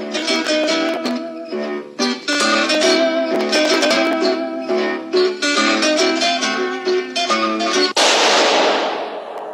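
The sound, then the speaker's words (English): Lively plucked zither music in a radio drama plays for about eight seconds, then a single gunshot cracks out and decays into a hissing tail: the shot that kills Harry Lime in a sewer beneath Vienna. “That was the shot that killed Harry Lime. He died in a sewer beneath Vienna, as those of you know who saw the movie The Third Man.”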